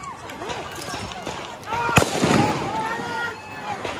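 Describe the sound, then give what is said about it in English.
A gunshot from an AR-15-style rifle rings out as one sharp, loud crack amid a din of shouting voices and crowd noise. “Rittenhouse, who was armed with an AR-15-style rifle, provided by an adult friend. Rittenhouse begins firing, as you can hear in this video from journalist Brendan Guttenschwanger.”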